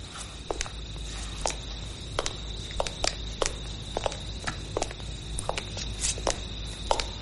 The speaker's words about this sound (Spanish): camina serio hasta su mesa del despacho